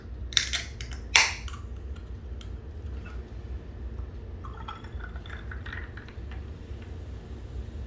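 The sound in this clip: Ginger ale poured into a glass of Oak & Cane rum: two sharp clinks, then faint, scattered fizzing crackles over a low steady hum.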